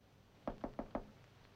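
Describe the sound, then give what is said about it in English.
Four sharp knocks on a door, evenly spaced in a quick run, each a crisp rap standing alone against a quiet background. “Buddy smooths down his hair and knocks on a door”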